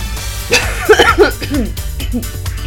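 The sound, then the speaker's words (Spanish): Coughing: a few raspy, throaty bursts in quick succession, loud and partly voiced, with short gaps between them and low background noise. “Ay, me dio la tos.”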